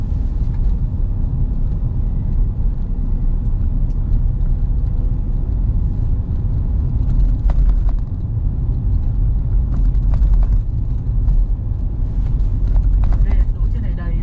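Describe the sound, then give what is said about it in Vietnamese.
Steady low rumble of road traffic outside a busy airport terminal, a continuous dense drone with a few brief clicks and clatters on top. “Mai Linh này ở trong sân bay thì khách cũng khá là đông nên là bây giờ mà máy bay hạ cánh nhiều ấy thì xe thường thường không vào kịp.”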